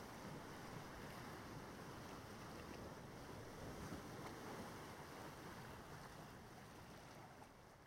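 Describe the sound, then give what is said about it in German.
Waves break on a beach in a soft, steady wash of surf, faint and continuous, with no voices and a slight fade toward the end. “Du hörst das Rauschen der Wellen, die sich immer wieder neu aufbauen und dann ans Ufer hinabgleiten.”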